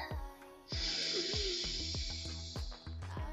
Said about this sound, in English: All right, join me, breathe in.